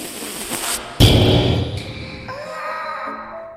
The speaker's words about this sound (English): Oh! That was so loud. They're open bombs. That's what he does. He drops bombs.